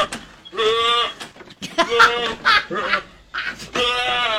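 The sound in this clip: A human voice imitates goats mating with a few nasal, wavering bleats in separate bursts, each rough and strongly voiced, with brief pauses between them.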